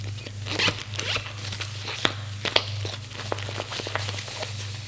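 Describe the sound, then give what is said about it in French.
A briefcase being zipped closed: a scratchy zipping rasp with several brief sharp clicks and handling sounds, heard alone over a steady low hum. “Elle ferme la serviette.”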